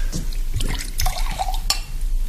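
Wine poured into a glass: a trickling, gurgling stream of liquid with a few splashy drips, steady and moderately loud, with no talk.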